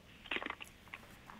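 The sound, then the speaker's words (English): Someone chews crunchy freeze-dried chicken from a Mountain House survival meal, making a few faint, irregular crunching bites with a cluster near the start and quieter crunches after, without talk. “Chicken's a little crunchy.”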